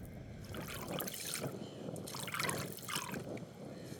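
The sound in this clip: Water splashes and trickles as a soaked object is rinsed and wrung out, a steady wet swishing with brief drips and squeezing surges rising and falling throughout.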